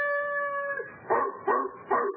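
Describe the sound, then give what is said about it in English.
A large Belgian shepherd dog bays unhappily: a sustained whining howl, then three short yelping bays, with no other sound around it. “a large Belgian shepherd dog stood looking up at a ground floor window and baying unhappily.”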